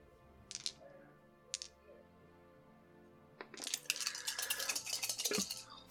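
Many dice are rolled during a tabletop role-playing game. A couple of faint, sharp clicks come first, then a dense, loud rattling clatter of dice tumbling together for about two seconds.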